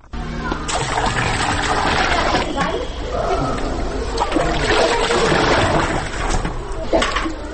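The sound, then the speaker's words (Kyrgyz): Kindergarten children, undressed outdoors in cold spring wind, splash themselves as they pour small buckets of cold water over their heads. The splashing and spattering stays loud and continuous throughout, with voices mixed in. “Анан эле суу куюлган кичинекей чакаларды ала коюшуп, ар кимиси өзүнүн башынан ылдый муздак сууну куюп жиберишти.”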